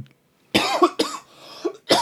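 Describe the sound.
A man coughing from a tickle in his throat: a few loud, harsh coughs in quick, uneven succession, with no talking.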